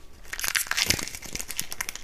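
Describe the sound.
Crinkling and crunching as someone eats gaz, a nougat-like Persian pastry: a dense run of crisp, rustling crackles and small bites over about two seconds, with no talk.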